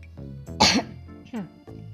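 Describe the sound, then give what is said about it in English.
A single sharp, forceful cough from a person with a cough bursts out between brief vocal sounds, loud against otherwise quiet surroundings. “I have like this cough right now, and I'm worried it could like interfere with my voice in the podcast.”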